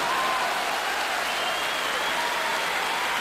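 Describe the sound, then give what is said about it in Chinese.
Applause from many hands, dense and continuous at an even loudness for the whole stretch, with no clear voices above it. “确实这里要再次响起掌声啊”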